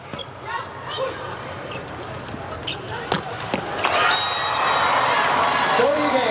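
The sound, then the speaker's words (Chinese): Crisp ball strikes from serves in a volleyball match between China and Turkey: a few sharp thumps over steady crowd noise that swells in the last seconds. “副攻王先来发球”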